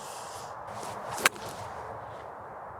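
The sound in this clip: Golf ball struck with a sand wedge on a shot toward the flag with a tailwind: one sharp, crisp click standing out over steady, faint outdoor background noise.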